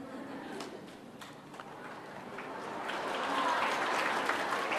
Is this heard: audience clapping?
yes

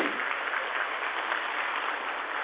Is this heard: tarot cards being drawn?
no

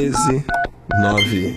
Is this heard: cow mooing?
no

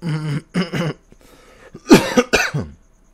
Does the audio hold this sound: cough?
yes

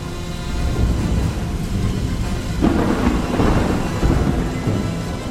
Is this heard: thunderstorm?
yes

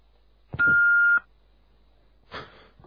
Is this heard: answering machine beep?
yes

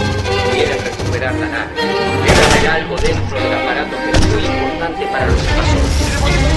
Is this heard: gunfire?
yes

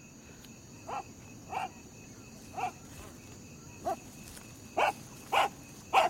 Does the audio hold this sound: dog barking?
yes

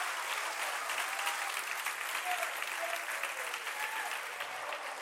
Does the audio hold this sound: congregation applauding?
yes

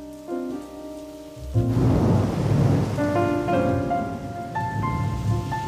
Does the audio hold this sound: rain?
yes

